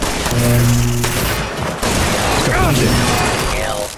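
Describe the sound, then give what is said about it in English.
Gunfire from robots fighting a battle in a video game: a loud, dense barrage of shots and bursts runs throughout, blended with electronic whines and mechanical tones. “Another robot shooting at us. Security. Now it's a, now they're having a robot battle.”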